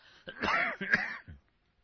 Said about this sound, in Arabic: معلش أنا يعني جو القاهرة يبدو فيه أتربة وكذا، فأستميحكم عذرا في كثرة السعال.